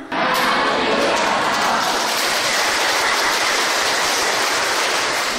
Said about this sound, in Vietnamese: À, sư nghe các vị vỗ tay như vậy là sư biết các vị nghe và hiểu và rất là vui, rất là hoan hỷ.